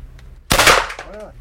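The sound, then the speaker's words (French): A single loud shot from a Flashball Super Pro 2 launcher fired at a target shaped like a man holding a gun. A sharp, powerful burst breaks the quiet and decays over about half a second, and a brief voice follows. “C'est une cible qui représente un monsieur qui a une arme à la main. Ça, c'est la dernière version. Là, c'est sur le Flashball Super Pro 2. Donc attention les oreilles.”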